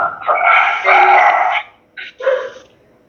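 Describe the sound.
A dog barks through a microphone during a group conversation: a long, drawn-out, howling bark, then two shorter, sharper barks, loud and without voices over it.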